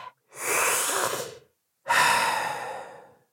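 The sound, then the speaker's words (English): A deep breath with no talk: a long, airy inhale of over a second, a short pause, then a slightly longer, steadily fading exhale. “Deep breath.”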